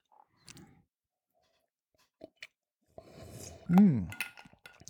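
Ice cube clinking in a glass of spicy drink, a few brief, light clinks separated by quiet gaps, with a short voiced sound toward the end.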